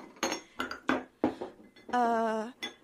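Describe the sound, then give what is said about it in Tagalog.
Dishes clink as plates are set out for a family meal: a few sharp, bright knocks and clinks in irregular succession, then a brief ringing tone. “Ako na po ang mag-aayos ng mga plato.”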